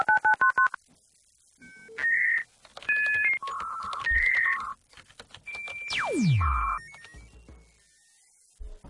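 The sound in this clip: Telephone keypad tones ring out: a rapid burst of short dual-tone beeps, then several longer separated beeps, followed by a steep falling swoop over a steady held tone. No one talks.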